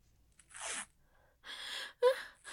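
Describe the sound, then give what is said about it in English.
Duct tape rips off the roll in three rasping tears. They are soft and fairly brief, separated by short quiet pauses, and the last is the sharpest. “Duct tape.”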